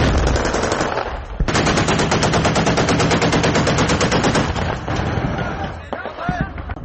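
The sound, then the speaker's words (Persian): Heavy automatic gunfire from fighting in Aleppo, Syria, rattles in dense, rapid bursts that run almost without a break for several seconds. It then thins to a few scattered, sharper shots near the end. “بعدی ضربه های زیادی هوایی و تیراندازی ها نیروهای سوریه به داخل شهر حلب حرکت می کنند.”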